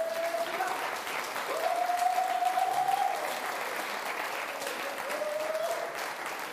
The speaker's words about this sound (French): Est-ce qu'on peut acclamer le Seigneur Jésus?